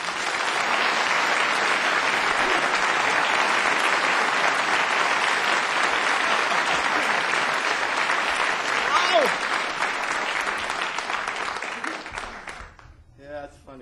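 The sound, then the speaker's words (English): An audience applauds to welcome a performer with dense, steady clapping that holds for about twelve seconds and then quickly dies away. “And put your hands together”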